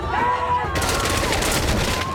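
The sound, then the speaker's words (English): Soldiers' guns open fire on villagers in a sudden volley, a dense burst of rapid overlapping shots that begins abruptly after a short lead-in and rattles on loudly to the end. “The soldiers open fire on them.”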